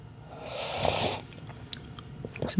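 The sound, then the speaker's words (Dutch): Filter coffee is slurped to taste it: one airy, hissing intake of about half a second, followed by faint mouth clicks and breathing. “En ik zal eventjes slurpen en proeven.”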